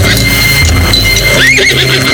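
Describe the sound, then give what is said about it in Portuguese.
A horse whinnies with a high, wavering neigh near the middle, over a loud, dense, continuous rumble that fills the whole stretch. “Nas noites de cumprir sua punição, ouve-se o seu galope violento, acompanhado de longos relinchos.”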